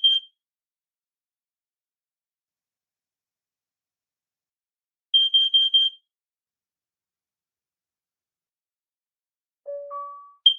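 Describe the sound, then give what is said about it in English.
A combined smoke and carbon monoxide detector runs its sound check with quiet electronic beeps: one short high beep, a long pause, then a rapid group of four high beeps. After another pause come two lower tones, the second slightly higher, and a final high beep. “that's basically a sound check that it's doing. So it does that on all the devices. So it tests its smoke, carbon monoxide”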